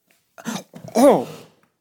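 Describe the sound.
A person coughs and chokes after inhaling chocolate: a short, harsh burst, then a louder, longer one with a strained, voiced tone that rises and falls in pitch.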